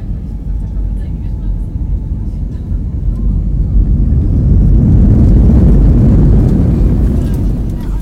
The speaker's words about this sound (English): Ladies and gentlemen, welcome to Lviv Airport, where the local time is 10:45 a.m. Please remain seated with your seatbelts fastened until the aircraft will come to a complete stop.